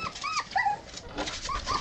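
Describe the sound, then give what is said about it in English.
Shiba Inu puppies, a litter of six of the Japanese breed, whimper and yip in short, high-pitched squeaky cries that overlap and repeat several times at moderate loudness. “Who needs a first dog when you can watch six puppies? They are Shiba Inu, a Japanese breed.”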